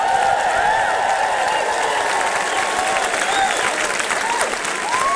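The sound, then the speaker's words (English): An audience applauds steadily to welcome a host onto the stage at an evening celebration, with dense, sustained clapping and a few whistles and cheers rising over it. “Please, ho mai te paki paki, a round of applause for the Kariori Ngāti Whātua as we welcome to the stage your host, the irrepressible Karen O'Leary.”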